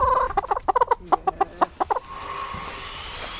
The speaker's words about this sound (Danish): Og det er jo så vores lille hønsebesætning på 5 høns.